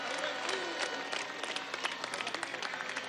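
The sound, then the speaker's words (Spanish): Crowd applause at a public event honouring a national militia: dense, steady clapping from many hands that continues evenly throughout. “Un aplauso a la Milicia Nacional Bolivariana.”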